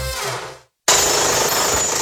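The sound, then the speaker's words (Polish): A jackhammer pounds in two loud bursts of rapid, harsh hammering, split by a brief moment of silence, with the second burst running steadily to the end. “Młoty kujące.”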